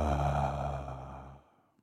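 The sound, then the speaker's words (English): A deep exhale through the mouth during a guided grounding breathing exercise: a soft, steady breathy rush lasting about a second and a half before fading out, faint and alone. “Take one more big inhale. And exhale through the mouth.”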